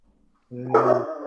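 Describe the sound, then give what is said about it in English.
A dog gives a single drawn-out, tonal bark that ends in a brief rougher trailing sound, with near silence before it. “So that's my dog.”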